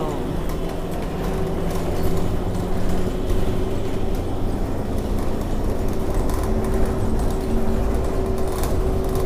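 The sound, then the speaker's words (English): Inside a moving bus, a steady low rumble of engine and road noise fills the whole stretch at an even level, with a person talking over it. “So I'm on the bus now, y'all.”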